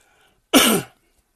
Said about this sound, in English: I apologize for coughing. I'm still recovering from a cold.